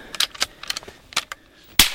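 A single loud, sharp gunshot cracks near the end, fired at an Australian brush-tailed possum in a tree on a small farm. It follows a stretch of faint clicks and rustles.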